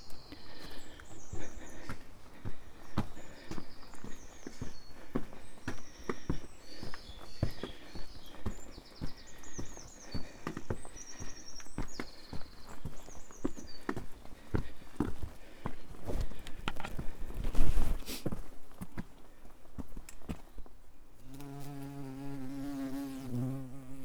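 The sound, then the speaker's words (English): Footsteps walking through woods on the coast path between Bucks Mills and Clovelly, a steady run of soft crunching steps and snaps that continues throughout, with a buzzing insect audible over much of it. “Walking through woods”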